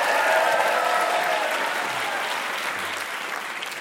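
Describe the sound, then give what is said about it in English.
An audience applauds a trivia-challenge contestant on a stage show. The thick, steady clapping tapers off slowly over a few seconds. “Let's give him a hand.”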